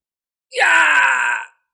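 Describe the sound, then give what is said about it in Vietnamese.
An agonized, mournful scream from a single human voice: one loud, sustained cry of about a second, with a sudden onset and a gradual fade, heard alone against silence. “Đột nhiên một tiếng kêu thảm thiết, thê lương phá vỡ sự yên lặng”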